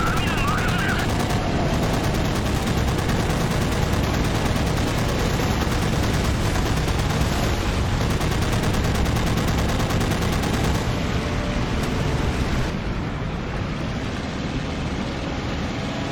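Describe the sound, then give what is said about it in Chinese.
Enemy machine-gun fire rattles nonstop during an anti-ship mission in the naval combat video game Battlestations: Midway. The dense, loud stream of shots eases slightly near the end. “在反舰任务当中，主要是要注意什么？敌方的自卫的机枪火力，主要是这个，其他没啥，真的没啥。”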